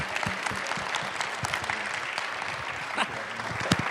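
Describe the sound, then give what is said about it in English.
Audience applause, dense and steady clapping that fills about four seconds at an even loudness, with no talk over it. “Come on, give him a hand.”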